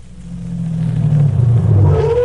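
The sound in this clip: A car's engine rumbles as it pulls up at a home, a deep steady drone that grows louder, with a faint rising whine toward the end and no talk over it.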